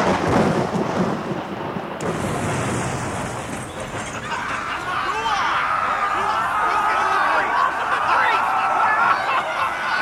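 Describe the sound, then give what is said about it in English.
Thunder from a lightning strike rolls as a loud, sustained rumble with crackling texture, surging sharply around two seconds in. It continues beneath voices for about ten seconds. “the lightning! It's going to hit...”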